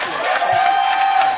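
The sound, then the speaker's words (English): Applause and crowd noise at a Key West city commission meeting after the vote passing a resolution to ban certain sunscreens. A dense, steady wash of clapping and cheering fills the whole brief moment. “obviously we heard the clapping, but there was a lot of support for this.”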